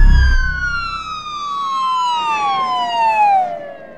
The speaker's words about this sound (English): I look over my shoulder to see the police cars pulling behind me.